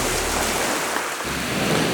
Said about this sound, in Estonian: on käivitanud siin oma juttu taustaks mõnusa merelaine